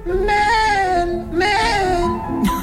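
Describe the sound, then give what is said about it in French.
A voice run through an echo effect gives a wavering, bleating, goat-like tone, with repeated harmonic sweeps that dip and rise in pitch. “Il me faut un petit écho. Attends, faut que je mette un écho.”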